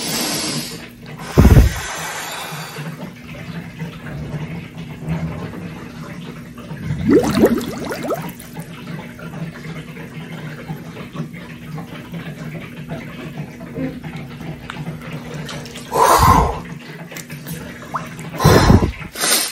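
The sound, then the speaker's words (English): Water splashes as a person ducks their head underwater in a cold plunge: a few brief, sharp bursts of splashing over a steady low hum. “One of the things that I always do too is go underwater. So we'll see how this actually films, but I like to go underwater and get my head cold too”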